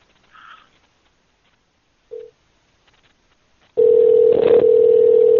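A steady telephone tone drones loudly through the end of a call to a Chinese restaurant. It follows a few faint, brief clicks and beeps.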